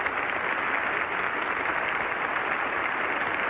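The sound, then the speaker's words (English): Concert audience applauding conductor Toscanini after an afternoon performance of the Philharmonic-Symphony Society of New York: dense, steady clapping fills the whole stretch at an even loudness. “Mr. Toscanini is being cheered by the audience at this afternoon's concert.”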